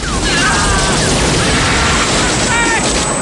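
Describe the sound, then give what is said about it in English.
An explosion in a film battle scene with a gunship firing on soldiers: a loud, sustained roaring rumble that fills the whole stretch, with thin whining tones rising above it now and then. “An explosion erupts.”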